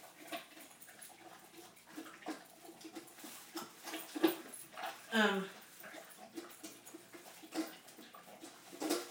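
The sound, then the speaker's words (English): A guide dog licks a bowl, soft wet slurping and clicking laps scattered under a person's talking, with a brief whimpering sound in the middle. “Now I've got to get the leash on him. He's licking that bowl for dear life.”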